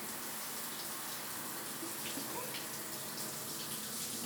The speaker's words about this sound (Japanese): シャワーかけていきますね。お湯加減の方はいかがですか？